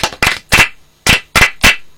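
Hands clapping for a teacher at a church gathering: six loud, sharp claps in an uneven rhythm, each crisp and separate, with short silences between them.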